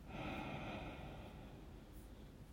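A slow breath drawn in during a quiet prayer meditation, heard as a faint, soft, airy hiss that swells early and then gradually fades, with no other sounds around it.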